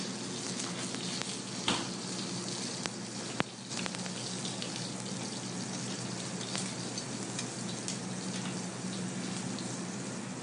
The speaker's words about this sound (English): These are the potatoes we blanched off, and I'm going to get them nice and seasoned, lay them out in the plancha flat, let them get a nice cooked sear, crispy sear on one side